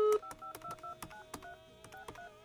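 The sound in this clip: Telephone keypad tones sound as a number is dialed for a call, a quick string of many short electronic beeps at varying pitches, clear and alone.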